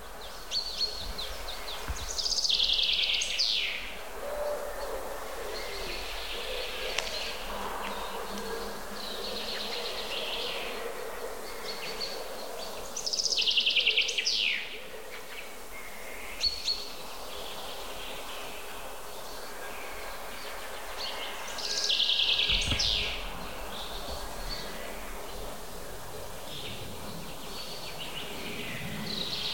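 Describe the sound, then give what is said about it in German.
Birds counter-singing, with three short, high song phrases several seconds apart over a steady, faint buzzing background. “Jetzt sind wir Zeuge eines klassischen Kontergesanges.”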